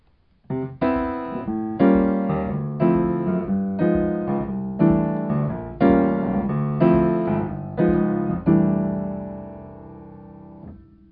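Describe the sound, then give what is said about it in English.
A plain turnaround chord progression in a major key, played as a steady series of struck chords, each ringing and decaying before the next, closing with a faint final chord. “a plain old turnaround, the pot, which we've seen already. This in a major key sounds like this.”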